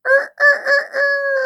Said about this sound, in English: it cried. Oh my gosh, a baby rooster was born.